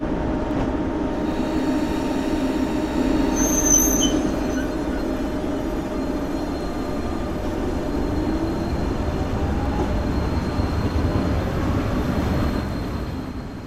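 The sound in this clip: Steady, loud rumble of a moving passenger train near Bilbao, heading into the area's old mining zone, with a constant wheel-and-track roar and a brief high squeal early on.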